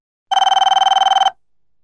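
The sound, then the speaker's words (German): An answering machine beep sounds after a recorded home telephone greeting: one bright electronic tone lasting about a second, pulsing rapidly like a trill, then cutting off into silence. “Rufen Sie später wieder an oder hinterlassen Sie eine Nachricht nach dem Signalton.”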